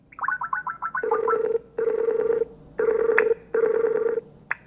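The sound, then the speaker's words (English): A Skype video call rings: a rapid run of short electronic chirps, then four sustained tonal ring bursts in an even rhythm, loud and clear with no talking. “So I recently set up a Skype appointment with Dr. Stephen Stoll to test out how it works.”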